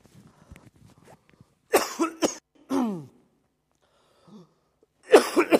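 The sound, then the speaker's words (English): Several harsh coughs and a throat clearing from one person come in short bursts separated by pauses, with faint low murmuring before them. “Oh, it's embarrassing when you've got something in your throat in front of all these people.”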